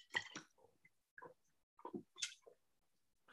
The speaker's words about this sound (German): Ganz, ganz kurz, ich nehme einen Schluck.